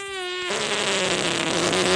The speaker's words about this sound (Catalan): Saps com vull acabar aquesta secció? No, no ho sé. Amb un pet.